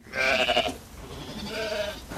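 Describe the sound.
Sheep and lambs bleating in a flock: a few loud, wavering, harmonic bleats follow one another with short gaps, with no other sound around them.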